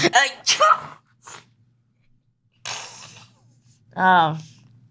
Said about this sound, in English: I'm about to sneeze in 3, 2, 1.